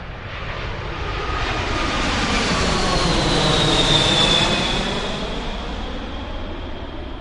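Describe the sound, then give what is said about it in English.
Aircraft engine noise swells to a loud roar and then slowly fades. A high whining tone rides over the broad rumble, its pitch sliding downward as the aircraft passes. “if you've lived near an airport, you know only too well that aircraft are really noisy.”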